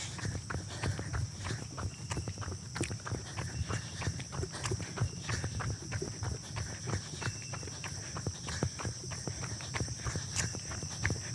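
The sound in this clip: Running footsteps during an uphill stride, a steady run of many quick, sharp footfalls at an even rhythm, heard over a constant background hum and a high, steady insect-like tone.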